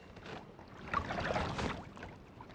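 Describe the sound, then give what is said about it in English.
Canoe paddling down New Brunswick's Miramichi River: soft, swishing splashes of paddle strokes through the water rise and fall in a loose rhythm, quiet and breathy with no voices. “a canoeist paddling down New Brunswick's Miramichi River.”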